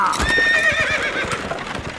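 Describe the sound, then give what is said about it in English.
A horse pulling a chuck wagon whinnies loudly as it sets off, and steady clip-clop hoofbeats run underneath the whinny and carry on after it. “Hop into my chuck wagon and let's get moving. Here we go.”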